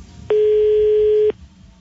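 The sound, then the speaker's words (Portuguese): A telephone tone sounds once, a single steady, loud beep of about one second, with faint background noise before and after it. “Ligar pro Ratos Topolino. Vamos ver o que que é isso.”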